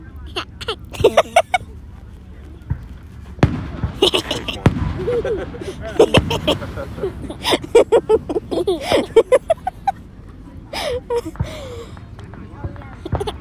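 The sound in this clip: Independence Day fireworks exploding in a rapid string of sharp bangs, small pops mixed with bigger booms, while people talk and laugh throughout.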